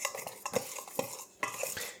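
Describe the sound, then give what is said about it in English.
A pastry cutter mixing salt into flour: a few scraping strokes with light metallic clinks in an uneven rhythm, soft and close. “I'm just going to use my pastry cutter here just to give it a mix, to incorporate it all around.”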